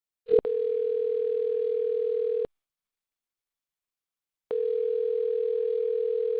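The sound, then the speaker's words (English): A telephone dial tone during a call: a brief click, then a steady single-pitched tone for about two seconds, a gap of silence of similar length, then the same tone returning and holding to the end. “let's just call Emma and see what's up, okay?”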